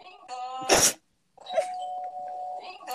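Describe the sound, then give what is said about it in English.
A voice imitates a doorbell ding-dong: a short sung note, a brief breathy burst, then after a pause a long, steady held tone. “So every time we hear a doorbell, we just do that.”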